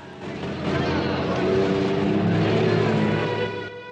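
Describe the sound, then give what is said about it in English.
Low engine rumble of German military trucks moving slowly along a narrow town street, a steady droning hum that holds evenly from start to finish. “The SIG fake German trucks slowly make their way along the narrow street.”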